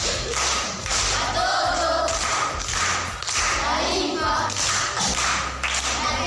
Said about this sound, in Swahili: Makofi kwa shangazi.